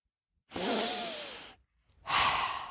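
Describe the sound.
A person breathes in and out in a long, airy, sigh-like breath with a faint voiced tone, then falls silent briefly before another strong breath starts and runs to the end; no words spoken.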